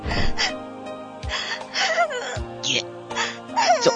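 Crying in a dramatic scene: halting, shaky sobs and gasping breaths with wavering pitch, separated by short pauses, over a soft sustained tone.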